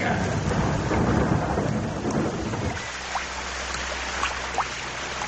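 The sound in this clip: Rain pours down with thunder. A deep rumble rolls beneath the downpour at first, then fades, leaving steady rainfall marked by a few distinct drips.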